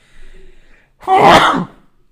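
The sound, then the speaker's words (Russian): A single sharp, loud human sneeze bursts out after a brief faint lead-in, then stops abruptly. “Я чихнул.”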